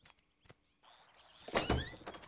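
A door being opened: a soft thunk, then a louder burst with a bright, squeaky tone and some rattling, followed by a few quieter knocks as it settles. No voices.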